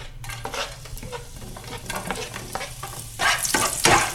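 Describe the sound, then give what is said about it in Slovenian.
Onion fries in plenty of hot oil in a large, deep pot with a crackling sizzle and scraping stirs, growing louder and busier toward the end. “In v olju bom zdaj opražil čebulo.”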